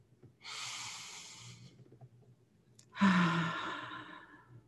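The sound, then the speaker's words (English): A person takes a deep breath before a prayer: two long, airy breaths with a pause between them, the second louder and sigh-like. No talk is heard. “First, I invite you to take a deep breath.”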